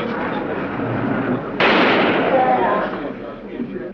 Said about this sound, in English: a gunman jumps out of the crowd of reporters. He's been shot. He's been shot. Lee Oswald has been shot.